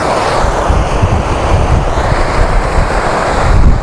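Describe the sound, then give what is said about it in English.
Wind blows outdoors, buffeting the microphone with a loud, steady roaring rumble and broad hiss that stays constant throughout, with no voices. “And it is a lot less windy up here, which is good. Because I am sick of this wind.”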